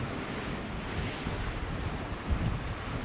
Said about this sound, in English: The waves break against so many rocks out there in the water about 50 feet out, and then again when they get to this point